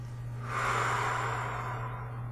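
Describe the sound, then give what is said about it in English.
A single long, deep breath is taken during a guided tapping session: a soft, airy rush that swells and then eases away over a couple of seconds, over a steady low hum. “Take a deep breath.”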